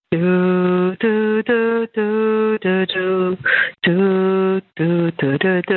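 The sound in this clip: A lone voice sings the theme from Dvořák's New World Symphony into a telephone voicemail. The held notes are separated by short breaks, with a thin, narrow phone-line tone.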